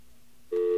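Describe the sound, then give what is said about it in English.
A telephone intercept recording: faint line hiss, then a loud, steady electronic tone cuts in about halfway and holds to the end. “There are different things called intercept recordings. And intercept recordings are things I'm sure we've all heard occasionally. Take a listen to this one.”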